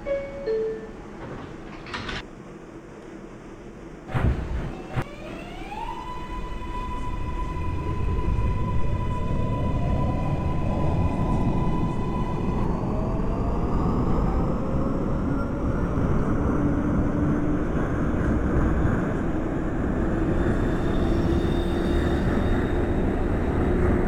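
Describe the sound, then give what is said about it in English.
A Brooklyn-bound New York subway Q Express train pulls away after brief tones, its rumble building steadily into a loud, sustained roar with a rising motor whine. “This is a Brooklyn-bound Q Express train. The next stop is 49th Street.”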